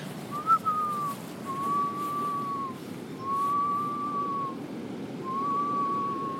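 A whistled imitation of a curlew's gentle, mournful moaning call: four long, smooth tones, each held for about a second with short gaps between, steady and moderately loud over a low background rumble.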